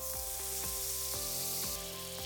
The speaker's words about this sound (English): Grab the pan with the butter in it and put it on the stove. Turn the heat up to a medium low, or if you're in a hurry, just turn it up to medium.